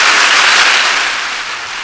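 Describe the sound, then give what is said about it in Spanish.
An audience applauds in an ovation after a reading of a poem by Juan Gelman, with dense, steady clapping that fills the short moment and tapers off slightly toward the end. “ovación para Juan Gelman con este poema.”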